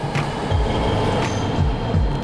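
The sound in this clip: A BART subway train runs with a steady low rumble and a rhythmic clatter of wheels over the rails. Soft thumps recur through the roar and no voices are heard.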